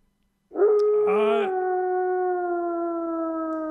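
A dog howls in one long, loud, unbroken wail that starts after a moment of silence. It briefly turns brighter and strained early on, then holds steady to the end with no other sounds.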